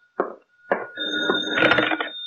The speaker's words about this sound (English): That's the phone, comrade. It's for you.